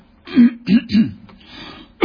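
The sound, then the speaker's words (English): Throat clearing from a person pausing mid-reading: a few rough, low, guttural bursts in quick succession, one fainter rasp, and a final burst cut off at the end, with no speech. “excuse me, can't get this out of my throat.”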